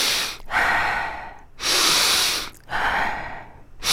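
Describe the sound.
Three slow, deep breaths are taken, each a loud, airy rush of breath lasting under a second with a short pause between them. No one talks.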